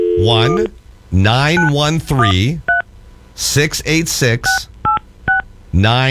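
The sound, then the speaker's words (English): Telephone keypad dialing tones as a public phone number is entered: a string of short, steady electronic beeps spaced between stretches of talking. “I have another number for you to try. Okay. Okay? Dial 1, and this is a public number.”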